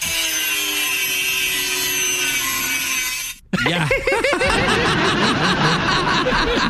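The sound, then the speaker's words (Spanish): A tree is cut with a handsaw. After a short break in a dense stretch of noise, many quick rasping back-and-forth strokes follow in a steady rhythm. “aquí tenemos el audio de Shakira cortando el árbol”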